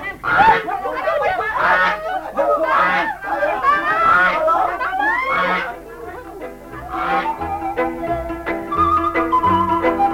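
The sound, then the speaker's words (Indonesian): A goose honks repeatedly as it is caught, loud and continuous, with many harsh, wavering calls over about ten seconds and voices mixed in. “Setelah angsa itu dapat ditangkap oleh Ratri, ternyata tangan Ratri melekat pada angsa itu.”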